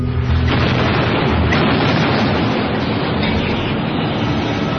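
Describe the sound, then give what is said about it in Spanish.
Cannon bombardment sound effect for the siege of the Alamo, a dense, continuous rumbling roar at steady loudness for the whole stretch, with no separate blasts standing out. “Comenzó el cañoneo.”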